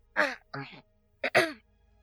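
Throat clearing and a cough: three short, rough, voiced bursts, with two close together and a sharper one after a pause. The sounds are loud and stand alone with no talk.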